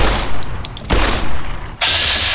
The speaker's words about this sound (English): Okay, I'm gonna shoot him in his little ant head. Take that!